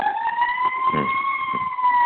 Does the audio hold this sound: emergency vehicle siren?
yes